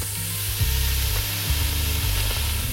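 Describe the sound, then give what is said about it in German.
Bacon sizzles and fries in a large cooking pot, giving a steady, dense crackling hiss with a constant level and no voices. “Da kommt jetzt rein der Speck. Der wird jetzt erstmal schön ein bisschen angebrutzelt, angebraten.”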